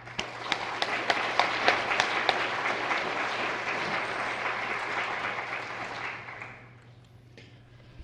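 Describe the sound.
Audience applause welcoming a speaker to a morning talk before a community of Christian scholars, with steady clapping and sharp individual claps that fades out over about seven seconds.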